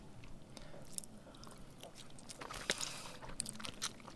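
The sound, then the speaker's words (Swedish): Someone bites and chews a salty snack. Crisp clicks and crunches come at irregular intervals, with sharper, louder bites toward the end over a soft background. “Ska vi äta lite mer på den här? Jag äter lite mer på den.”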